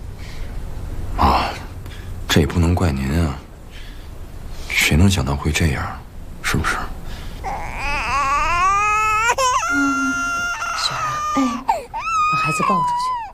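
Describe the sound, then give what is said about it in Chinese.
A baby cries in a family home. Adults talk at first, then the infant wails in long, wavering, high-pitched cries that carry on to the end. “把孩子抱出去，别吵到你大哥。”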